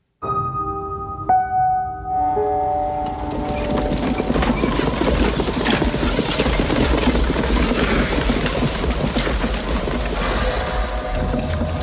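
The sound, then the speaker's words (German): Hooves clop as a horse-drawn carriage arrives on the long road up to a mountain pass. The steady, loud stream of hoofbeats runs throughout and quickly becomes dense and continuous. “Da kommt der Wagen.”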